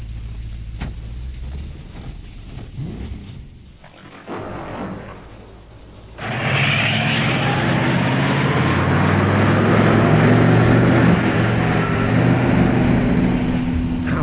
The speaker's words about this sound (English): Who would have thought a week ago I'd be here driving on a lonely, dark road looking for an old mansion?